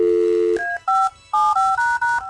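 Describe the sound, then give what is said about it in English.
A phone number is dialed on a touch-tone keypad to call the boss: a steady low dial tone, then a quick run of bright, two-pitched keypad beeps in short bursts, with no talking. “All right, this was not my idea, but we're calling the boss.”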